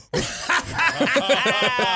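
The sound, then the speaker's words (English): A person snorting amid snickering laughter: a series of short nasal, voiced bursts, fairly loud and steady across the whole moment. “Oh, snort. We got a snort.”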